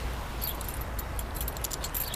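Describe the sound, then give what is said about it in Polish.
A large bunch of keys for a garden allotment jingles in bright, scattered metallic clinks over a low, steady background hum. “Ale ma pani dużo kluczy, to są wszystkie od działki?”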